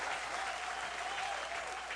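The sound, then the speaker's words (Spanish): An audience applauds a performer with dense, even clapping that holds steady for about two seconds, fairly faint and with no talk over it. “Un aplauso grande para don Ramiro Cavazos.”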